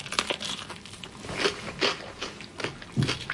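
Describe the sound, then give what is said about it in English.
Bite of homemade food: crisp crunching and chewing with a rapid series of crackly bursts at moderate loudness and no talk. “Let's try it. Let's take a bite.”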